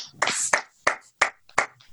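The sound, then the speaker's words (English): A golf clap: six slow, sparse hand claps, each a sharp crack with short gaps between them. The claps sound alone, with no voices. “I think that deserves a golf clap.”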